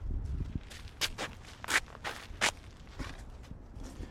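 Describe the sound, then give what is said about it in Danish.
Footsteps walk along a long forest path, a steady series of crunching steps at an even pace, with a low rumble underneath. “Og lige nu, der går jeg på en lang sti”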